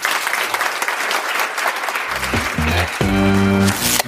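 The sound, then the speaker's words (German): An audience applauds the hosts at a live event with loud, dense, steady clapping. Sustained musical notes enter halfway through and continue alongside it. “Vielleicht einen Applaus”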